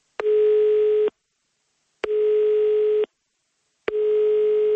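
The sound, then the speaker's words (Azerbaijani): A telephone ringing tone plays during an unanswered call to a government emergency ministry. Three steady, single-pitched tones, each about a second long, are separated by roughly one-second silences. “Gün ərzində telefon dəstəyini qaldıran kimsə tapılmadı. Biz həmişə Fövqəladə Hallar Nazirliyinə müəyyən bir məsələ barəsində zənglər eləyirik və həmişə bayaq eşitdiyiniz cavablar olur”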